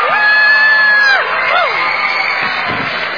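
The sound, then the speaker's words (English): Cheering and whooping from a game-show studio audience: a sustained, whistle-like whoop rises over steady crowd noise at the start, followed by a couple of shorter swooping calls and continued loud cheering. “3, 2, 1, and y'all are going to applaud loudly.”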